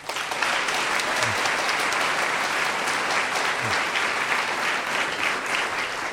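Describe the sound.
Audience applause welcoming two speakers at a Chautauqua interfaith lecture, a steady, dense wash of clapping that holds evenly for several seconds.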